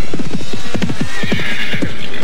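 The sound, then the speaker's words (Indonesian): Six riders spur their horses hard at a gallop: loud, rapid, continuous hoofbeats in a driving rhythm, with neighing mixed in. “Ke-6 penunggang kuda itu berusaha memacu kuda mereka dengan cepat.”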